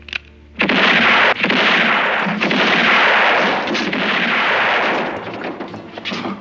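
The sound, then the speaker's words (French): Gunfire in a Western-style showdown: a loud, dense roar of shots that runs for several seconds, with a few sharper cracks standing out and no voices. “Mais il sait aussi que ses coups de feu vont donner l'alerte.”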